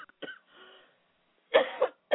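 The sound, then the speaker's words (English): Coughing comes as a few sharp, raspy bursts near the end, preceded by softer, brief throat sounds amid near silence. “And I did not have coffee. I have not been coughing all day.”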